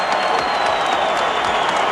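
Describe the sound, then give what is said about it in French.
A stadium crowd gives a standing ovation to a Canadian silver medallist in athletics: a thick, roaring blend of clapping and cheering that stays loud and steady throughout, with a thin high tone running across it. “Une ovation monstre. Les gens sont debout, mesdames et messieurs.”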